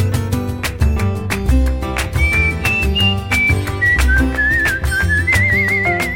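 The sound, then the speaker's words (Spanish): Whistled melody in a song: a thin, wavering tune enters about two seconds in and carries over steady rhythmic instrumental backing with a strong beat, with no singing. “en la escalera me siento a silbar mi melodía.”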